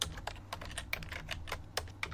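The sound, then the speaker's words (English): Typing on a computer keyboard as someone searches for an online number generator: many quick, quiet key clicks in an uneven rhythm, with a few louder taps over a low steady hum. “let me get out my number generator here. I just go to Google usually and type in number generator.”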